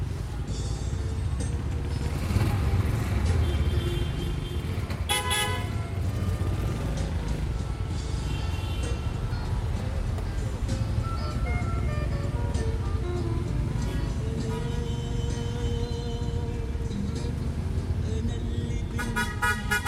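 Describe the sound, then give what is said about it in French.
Street traffic heard from inside a taxi in Algiers: steady low engine and road rumble throughout, broken by a few short car-horn toots. “j'avais construit toute une dérive sonore dans Alger à partir de ces prises sonores dans les taxis”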